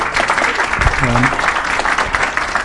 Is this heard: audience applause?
yes